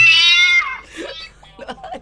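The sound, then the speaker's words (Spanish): A cat meows loudly in a room: one long, drawn-out meow whose pitch falls toward its end, followed by people talking over a quieter background. “¡Ay, sáquen ese gato!”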